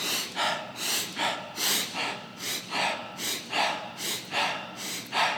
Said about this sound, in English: The inhale and an exhale as a response sounds like this.